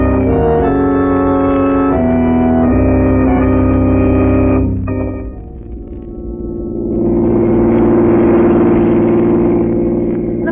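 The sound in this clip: A car engine drives along in a vintage radio drama, a steady low mechanical drone with a harmonic whine that dips briefly midway and then swells back louder.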